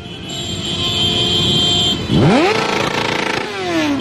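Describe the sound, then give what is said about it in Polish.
Motorcycle engines roar loudly as a large group of bikers dressed as Santa rides in to deliver presents to a children's hospital in Lublin, with a steady rumbling drone broken by a sharp rev that sweeps upward in pitch midway. “Kilkuset Mikołajów na motorach przywiozło prezenty podopiecznym m.in. Uniwersyteckiego Szpitala Dziecięcego w Lublinie.”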